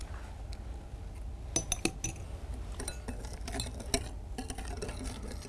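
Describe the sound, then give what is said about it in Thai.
A utensil stirs a batter mixture in a bowl, with soft continuous scraping broken by irregular light clinks and taps against the bowl's side. No voices are heard. “ค่อยๆเติม ค่อยๆเติมแบบนี้นะคะเติมแบบนี้แล้วก็คนนะคะให้ส่วนผสมเข้ากันก่อนแล้วก็ค่อยเติมลงไปอีกนะคะ”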